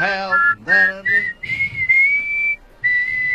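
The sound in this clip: A person whistles a song melody alone, a clear, steady, high tone moving through several held notes in short phrases separated by brief pauses, slightly off-key in places, with no talking.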